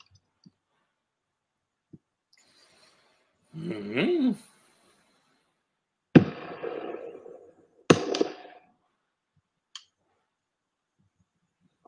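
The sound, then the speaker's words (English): Suppressed 12 gauge shotgun firing subsonic slugs at a polycarbonate lid target: two sharp, loud blasts a couple of seconds apart, each with a short, decaying rumble, plus a few faint clicks. “Now we're going to try the thick boy 12 with these subsonic slugs we got here.”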